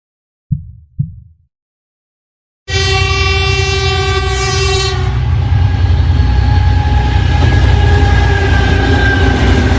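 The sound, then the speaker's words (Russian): A passenger train with compartment cars rolls along rails through forest and snowy fields. Two brief knocks come first, then a loud, steady rumble starts abruptly, with a tonal horn-like whine over its first seconds. “Поезд мерно катил по рельсам сквозь бесконечные леса и бескрайние поля, покрытые белизной первого снега.”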